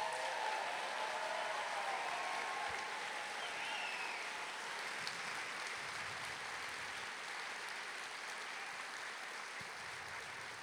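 Audience applause for the storytellers at a storytelling event: faint, steady, continuous clapping that stays even throughout.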